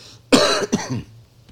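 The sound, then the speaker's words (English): A person coughs twice in quick succession. Both coughs are harsh and loud, with no speech around them. “apologize for my cough”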